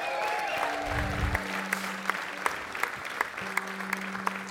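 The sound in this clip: Audience applause at a St. Patrick's Day breakfast at the Boston Convention and Exhibition Center in South Boston: steady, dense clapping from a crowd that carries on evenly throughout, with a few steady tones sounding over it.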